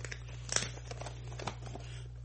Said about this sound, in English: All right, let me open this up and see what about Star Trek it is, though. All right. Just tearing this box all up.